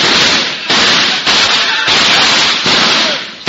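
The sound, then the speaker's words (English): Gunshots are fired at a fleeing man in a rapid series of five loud, harsh blasts. Each blast rings out briefly before the next one hits. “He's open. Fire at him!”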